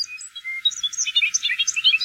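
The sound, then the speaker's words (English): Bobolinks sing in grassy farm fields, a quick, loud tumble of bright chirps and bubbly warbling notes tumbling over one another, with no other sound behind them. “Those are the bobolinks at Appleton Farms in Ipswich”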